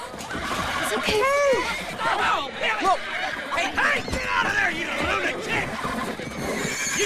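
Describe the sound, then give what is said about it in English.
A herd of mustang horses neighs and prances in a corral, with several shrill whinnies overlapping above the clop of hooves while people talk and murmur among them. “A herd of Mustangs prance around inside. Flicker rears up on her hind legs.”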